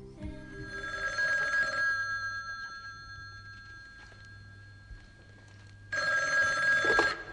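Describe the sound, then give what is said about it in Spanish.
A telephone rings for an incoming call in two bursts of bright ringing, the first at the start and the second near the end, with a quieter stretch of low background hum in between. “creo que tenemos una llamada.”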